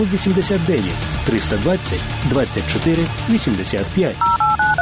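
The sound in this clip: Telephone keypad DTMF tones dial a number: a short run of steady electronic beeps at a few different pitches near the end, after a voice speaks.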